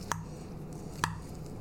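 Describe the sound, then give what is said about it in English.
Two sharp, brief clicks of a fork against a bowl while breaking egg yolks and mixing bibimbap, about a second apart over a quiet, low background. “Grab your fork. I'm gonna use my subpar fork. Judging right, my fork. We need to break into the yolks, right? Okay. Yeah. Mix a little.”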